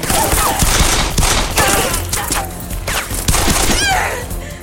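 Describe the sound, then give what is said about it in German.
Loud gunfire from someone shooting crackles in rapid, dense volleys, bursts of shots tumbling over one another almost without break for several seconds. “Und jetzt schieß endlich, verdammt!”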